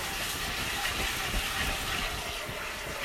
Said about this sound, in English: I'm putting them in the pot that I usually, I just dump them in there. Let me give that a little rinse.